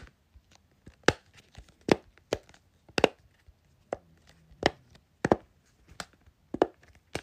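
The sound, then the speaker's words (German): A large Simple Dimple silicone fidget toy being pressed for ASMR makes many sharp, dry pops and clicks. They come in an irregular rhythm, some loud and distinct and others faint, with no talking. “Dann habe ich noch ein paar Fidget Toys eingepackt, ein Simple Dimple, also diese großen. Kurz ASMR, macht die Lautstärke hoch.”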